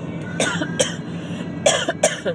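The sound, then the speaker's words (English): Harsh coughing from a person with a worsening cough on a hot day: two pairs of sharp, rough coughs with brief throat sounds between, fairly loud and with no talking. “Excuse me. My cough is getting really bad now.”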